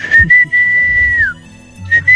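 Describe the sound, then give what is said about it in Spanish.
Someone whistling: a couple of short notes, then a long steady tone that glides downward at its end, a brief pause, and two more short notes at the same pitch. The whistling is clear and loud, with faint low noises underneath. “¿Quién está silbando? ¿Qué estará haciendo eso, ah?”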